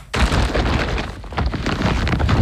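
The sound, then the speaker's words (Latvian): Rustling, crunching clatter of an IKEA shopping bag packed with clearance goods, a loud, dense burst of noise that starts abruptly and carries on steadily for about two seconds. “Dzirdi? Tā skan IKEA iepirkuma maisa ar izpirkšanas precēm.”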